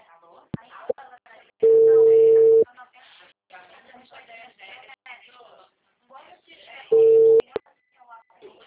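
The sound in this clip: Telephone tones after a dropped call: two loud, steady beeps, a long one and a shorter one several seconds later, with a voice talking in between.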